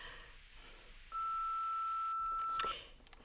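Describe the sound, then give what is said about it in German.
A single long, steady, high beep from the automatic answering machine of a doctor's practice, lasting about one and a half seconds, preceded by quiet line hiss and ending in a faint click. “automatischer Anrufbeantworter”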